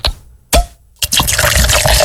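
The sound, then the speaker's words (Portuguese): A can of Coca-Cola is opened and poured. Three sharp, clicking bursts come about half a second apart, followed by a loud, continuous fizzing pour of liquid. “E tá liberado já, meu companheiro, pra você abrir aí uma latinha de coca, né? Mas essa latinha de coca tá liberada, viu?”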